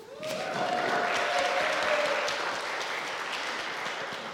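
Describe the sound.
Applause from a church audience at a morning service, welcoming a speaker up to share a testimony. Dense, steady clapping starts almost at once and carries on evenly for about four seconds, slightly easing toward the end.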